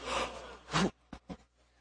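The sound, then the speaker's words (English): An audience gasps together on cue, a soft breathy rush that swells and cuts off sharply, followed by two short breathy puffs; faint overall. “You're the crowd. You're sitting down, and you're going to gasp when I get to that word, all right?”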